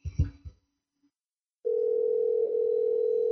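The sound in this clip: Telephone dial tone on a modern push-button phone, a steady, loud, unbroken hum that starts suddenly after a few brief low knocks and a short silence, then holds unchanged to the end.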